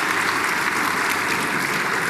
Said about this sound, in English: All right, this is going to take ages if we clap for everyone, because there are a lot of sponsors.